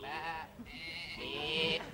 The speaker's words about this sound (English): No, that's definitely a sheep.